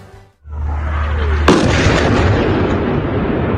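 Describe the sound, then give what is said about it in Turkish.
An explosion from an Israeli strike on southern Lebanon: a steady low hum is cut by one loud, sharp blast, followed by a long, dense roaring rumble that does not fade. “İsrail Lübnan'ı böyle vurdu.”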